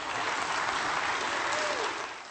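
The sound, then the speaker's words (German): Applause from a church audience: a dense, even wash of clapping that stays loud and steady, easing off slightly at the very end. “Ein Applaus.”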